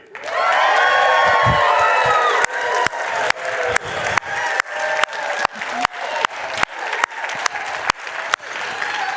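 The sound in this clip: A church audience cheers and applauds in celebration, loud shouts and whoops riding over a dense burst of clapping that then settles into steady, rhythmic clapping in unison for the rest of the stretch.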